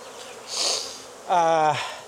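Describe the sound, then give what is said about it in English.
Honeybees buzz at an open beehive during an inspection. A soft, hissy buzz rises and fades, then a louder close buzz enters and its pitch drops before cutting off. “I mean, there's bees in here, but it's not bubbling out.”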